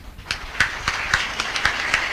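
Audience clapping at a religious gathering honoring a pandit after a 61-day discourse, steady rhythmic claps at an even pace over a continuous background murmur.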